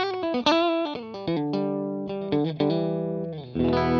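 A clean electric guitar plays through a Steampunk pedal's buffer, with several pedals chained yet sounding as if plugged straight into the amp. It plays a steady run of picked, ringing notes and a few chords at even loudness.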